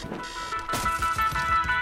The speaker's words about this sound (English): Oh, that's my alarm.